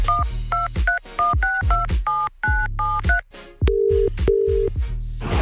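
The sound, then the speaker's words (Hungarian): Touch-tone keypad beeps as a radio host dials a contest winner's phone number: a quick run of short dual-tone beeps, then two longer, lower tones, with no talk. “Tárcsázom is, lássuk ki ő.”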